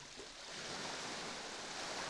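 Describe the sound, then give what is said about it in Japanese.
Ocean waves wash ashore in a steady, broad rushing hiss that swells gently and stays soft and continuous, with no voices. “ここにいたの？波がもう寝ているあなたの髪を濡らしてる。”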